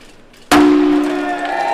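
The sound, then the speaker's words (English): Champagne bottle smashed against a brand-new bright blue hydro turbine in a lake powerhouse: one sharp loud impact followed by a sustained metallic ring that slowly fades. “Mayor Mim McConnell and project manager Dean Orbison did the honors, smashing a bottle of champagne against one of the brand new bright blue turbines in Sitka's Blue Lake powerhouse.”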